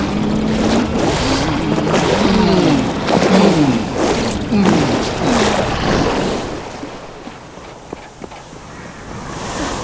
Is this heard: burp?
no